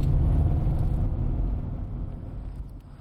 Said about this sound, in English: Well, I'm gonna drive in there anyway.